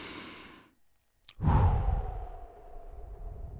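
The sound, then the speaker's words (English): A deep breath drawn in and released during a guided meditation: a soft airy intake, a brief silent pause, then a louder rushing exhale that slowly tapers off, with no talking. “Take that breath, inhale,”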